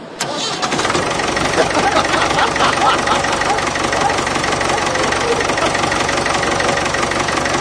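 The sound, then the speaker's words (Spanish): Honda racing motorcycle engine at low revs at the Jerez circuit catches with a sharp start, then settles into a loud, steady, buzzing drone rich in harmonics. “Vamos a escuchar el Honda a sus pocas revoluciones que puso en Jerez.”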